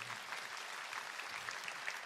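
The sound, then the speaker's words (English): A church audience clapping: steady, dense applause that stays faint and even throughout. “Come on, let's give God a good clap offering again.”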